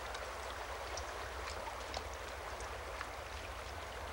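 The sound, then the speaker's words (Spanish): River water flows in a steady, continuous rush with faint splashy ticks scattered through it. No voices are heard. “Junto al río, John se sienta sobre un tronco mientras ella recoge agua en bolsas de tripa de bisonte.”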